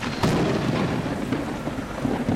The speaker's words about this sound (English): It's another rainy day in New York City. Another rainy day in what's been a very wet year.